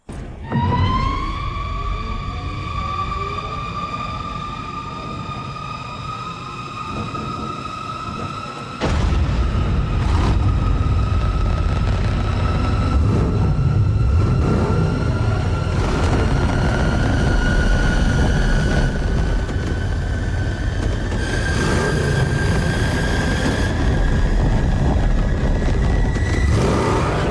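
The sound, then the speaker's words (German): Batmobile engine from a Batman film sequence: a high mechanical whine climbs in pitch over the first seconds, then a sudden loud roaring blast erupts and holds at a steady, powerful rumble beneath a sustained high tone. “Part ist das Batmobil. Ja. Und dafür, weil es noch so geil einen Sound hat, habe ich kurz den Sound rausgeskippt von dieser Sequenz.”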